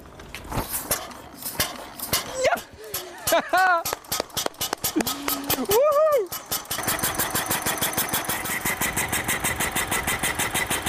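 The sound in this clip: An early automobile engine is started. Irregular mechanical clatter and knocks come under talking voices, then the motor catches and runs in a steady, rapid, evenly pulsing chug.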